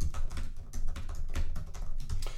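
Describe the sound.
Rapid typing on a computer keyboard as a question is entered into a slide editor: many quick, fairly faint keystrokes in an uneven, continuous stream, with no voices.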